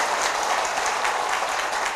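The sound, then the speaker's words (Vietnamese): Applause at a Buddhist gathering marking Vietnam's hosting of the UN Vesak celebration: thick, continuous clapping from many people, steady and even in loudness from start to finish. “Chúng ta hãy dâng cao tràng vỗ tay để chúc mừng Việt Nam tổ chức đăng cai”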